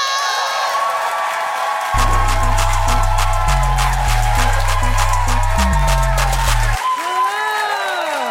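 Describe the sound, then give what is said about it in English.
An audience claps and cheers as a comedian is welcomed to the stage at a live comedy show. The loud, continuous applause is joined midway by a pulsing bass-heavy music line that stops before the cheering fades. “hands are my second favorite thing to clap. Yeah, I said it. So go absolutely ham as we welcome to the stage”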